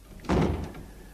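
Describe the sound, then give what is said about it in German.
A door thuds shut as someone leaves a room in a German radio drama: one solid, muffled impact with a short fading tail and no voices. “die Fräulein ist gerade weg, ist gerade raus bei der Tür”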